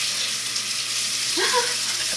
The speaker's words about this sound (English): That water is awfully loud.